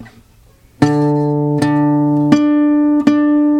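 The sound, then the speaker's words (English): A riff picked on a stringed instrument, starting on the fifth string and moving on to the third and fourth: four clear plucked notes in an even rhythm, each ringing on until the next. “it's the exact same riff, except now we start at the fifth string. And everything moves up one set of strings.”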